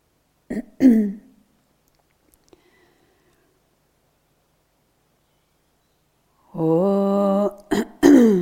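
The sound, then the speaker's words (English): Throat clearing during a chanting session: a short, rough clearing sound near the start, then a long silence before a held voiced tone and a couple more brief throat noises at the end. “You might have to do that as well, the throat clearing thing.”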